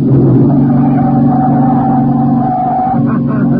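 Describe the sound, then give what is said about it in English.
A car engine drones at about 70 miles an hour, a loud, steady hum with a constant low pitch. The tone wavers slightly near the end. “Hey, you're going 70 miles an hour. Don't worry about it, pal. I can go faster than that. I've done plenty of it. But look out that corner.”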